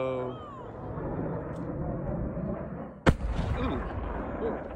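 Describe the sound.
A model rocket crashes on impact and explodes into a fireball: a steady low rumble is broken by one sudden sharp bang, followed by more rumbling, with voices in the background.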